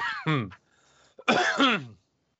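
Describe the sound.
A person clears their throat in two short voiced bursts separated by a brief quiet pause, each a throaty, rasping hem that rises and falls.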